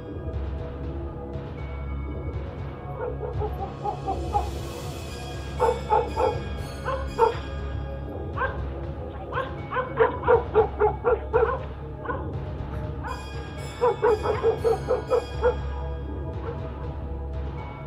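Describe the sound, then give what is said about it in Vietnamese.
Dogs bark repeatedly in sharp clustered bursts, mixed with whimpering yips, many barks rising and falling in intensity over a steady low background hum. “Xung quanh chỉ là tiếng chó sủa, tiếng chó tru.”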